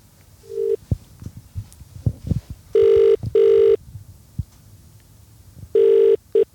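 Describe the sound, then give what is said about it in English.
Telephone ringback tone as a call goes through, with one brief tone first and then two pairs of loud, steady double rings separated by a pause, over faint low background noise. “So bear with us. We're about to dial.”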